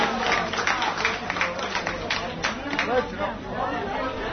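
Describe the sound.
An audience applauds a third-place winner at a light-hearted games competition, the clapping mixed with crowd chatter and voices talking throughout.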